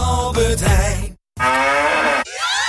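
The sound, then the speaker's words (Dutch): Cow mooing from a Müller milk bottle: two long, loud, low moos separated by a brief silence, followed by a short, softer, fading tail. “Al één van de vier Müller-melkflesjes met het moe-geluid is gevonden.”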